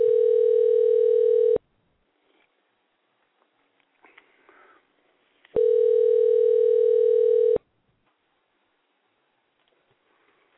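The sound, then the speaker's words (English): A telephone line tone sounds while a call is dialed: two long, steady buzzing tones, each lasting a couple of seconds, separated by a quiet gap with faint clicks and rustling. “And we're dialing.”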